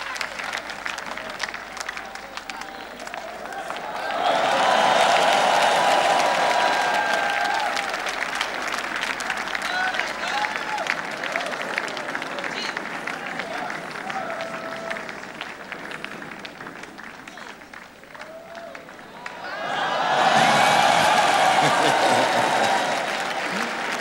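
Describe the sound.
Congregation applause at a church service at the altar comes in two loud bursts of dense clapping, one early and one near the end, with talking and lighter crowd noise between them.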